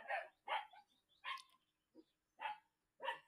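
Puppies barking, six short, high, yappy barks separated by clear gaps, with one noticeably quieter than the rest and no talk.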